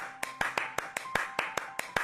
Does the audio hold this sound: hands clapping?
yes